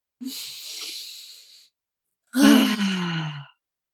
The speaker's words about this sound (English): do you need a deep breath? Let's do one.